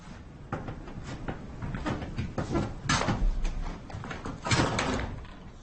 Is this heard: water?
no